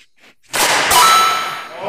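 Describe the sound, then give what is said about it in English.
A hockey puck shot at an off-ice training facility gives one sharp, loud metallic clang that rings on brightly after a quiet start. “And maybe after we show how bad we're doing, they'll give us some pointers on how to shoot these things. How to shoot a puck. All right, here we go.”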